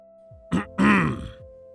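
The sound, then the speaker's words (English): A man clearing his throat: a short throaty grunt, then a longer voiced rasping ahem that trails off, alone over a steady low hum. “clears his throat.”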